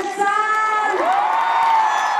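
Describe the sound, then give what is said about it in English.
Tens of thousands of people in a downtown Tel Aviv plaza cheer as images of released hostages are shown. Loud massed voices roar steadily, with high whoops and shouts rising above the crowd. “Cheers erupted as the images of the released hostages are transmitted to tens of thousands gathering in a downtown Tel Aviv plaza dubbed Hostages Square.”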